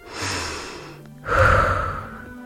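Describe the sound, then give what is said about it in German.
Deep breathing in and out during a guided relaxation exercise. One long, airy breath is followed by a brief pause, then a louder, fuller breath that slowly fades. No one speaks. “Atme einmal tief ein und wieder aus. Noch einmal einatmen und wieder ausatmen.”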